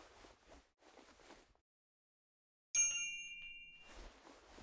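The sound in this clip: A single bright ding of a small bell rung to summon a servant, struck once and ringing out with shimmering high overtones as it decays, between stretches of soft speech.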